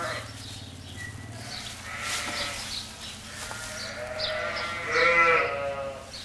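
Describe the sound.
Sheep and lambs bleat in a barn during lambing season, with a few wavering calls. The loudest calls come near the end, and a voice speaks over the animals.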